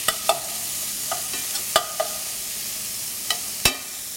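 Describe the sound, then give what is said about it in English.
Bacon fries in a pan for classic baked beans, making a steady, bright sizzling hiss broken by a few sharp scraping clicks from stirring. “Then I have bacon and onion that I'm gonna cook down. Let me start doing that as we speak. We're gonna cook the bacon first to get a little bit of color on it.”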